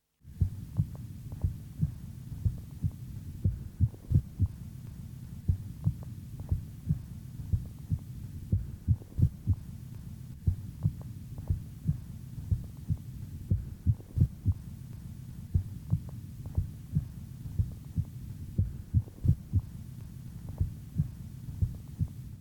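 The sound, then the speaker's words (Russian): Heartbeat with a regular rhythm broken by single premature extrasystoles, each followed by a compensatory pause, with a stronger first heart sound on the early beat; many faint, low thuds repeat steadily against a soft hum. “на фоне правильного ритма слышны одиночные преждевременные сокращения сердца, после которых следует компенсаторная пауза. В момент экстрасистолы можно определить усиление первого тона по сравнению с предшествующими циклами.”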